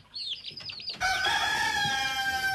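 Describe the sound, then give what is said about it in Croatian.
Chickens cluck in quick, choppy bursts, then a rooster crows in a long, high, sustained call that carries to the end, fairly faint and without talk. “Kokoš, pjetao, pile. Kokodakati, kukurikati, pijukati.”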